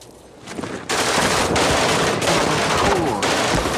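Heavy gunfire in a firefight around a Humvee, with a multi-barrel Russian anti-aircraft gun in action; a quieter rumble swells into a dense, loud, continuous roar of rapid shots that holds steady to the end.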